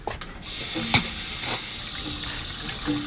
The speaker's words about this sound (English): I need water stat. Yeah, of course. We have, like, a sink. A sink would be incredible.